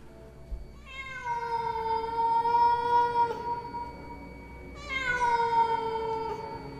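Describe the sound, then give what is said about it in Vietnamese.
Cat yowling mournfully outside around a village at night: two long, drawn-out, loud meows, each holding a steady pitch for about two seconds, separated by a short pause. “Ở bên ngoài phụ cận quanh thôn vang lên tiếng mèo kêu đến thê lương, nghe vào mà rợn hết cả người.”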